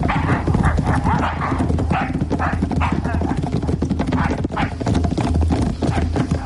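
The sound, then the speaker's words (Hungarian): Hooves of three horses clip-clop at a steady, brisk beat, loud and continuous throughout, as the animals are led off and then set running. “Mindenki tartja a vezetéklovát? Igen. Induljunk, de csak lassan. Futás!”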